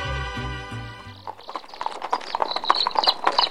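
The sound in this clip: A horse's hooves clip-clop as it pulls a cart with iron wheels, many strikes in a steady rhythm, after a short musical passage fades out.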